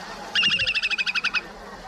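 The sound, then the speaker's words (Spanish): Song of a slender-billed curlew, a migratory shorebird species declared extinct: a rapid, evenly spaced series of about ten short, high, whistled notes over faint low background noise. “ahora mismo lo que están escuchando es el canto del zarapito picofino.”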